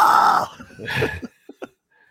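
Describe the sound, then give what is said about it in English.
A man screams loudly into a microphone, imitating metalcore intro vocals with a harsh, sustained yell, followed by a shorter rough shout and a few brief, clipped vocal bursts before silence. “Did you see what I was doing in the mic? Yeah, you were screaming.”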